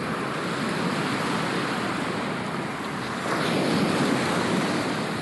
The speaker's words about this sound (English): in your left ear, if you've got your headphones oriented the way I have them, you're hearing the ocean, and then on the right is the roadside